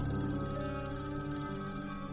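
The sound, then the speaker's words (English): A telephone rings in the early hours of a fall day in 1933, a steady, continuous, bright ringing tone heard alone throughout. “Howard Strickling received a phone call in the early hours of a fall day in 1933”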